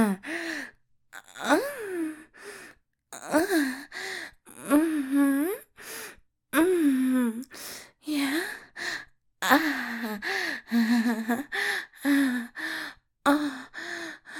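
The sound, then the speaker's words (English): Sharp gasps and breathy sighs from a person, a hitching breath repeated many times in short bursts with brief pauses between, some carrying voiced, moan-like tones. “Your breath hitched.”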